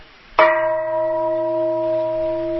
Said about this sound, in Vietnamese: đánh cho thầy một tiếng chuông, đánh cho thầy một tiếng chuông mạnh lên